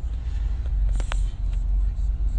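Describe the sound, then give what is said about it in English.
Car driving on the road, heard as a steady, loud low rumble of road and engine noise with a few faint brief clicks over it. “I'm on the road with, in the same freaking car”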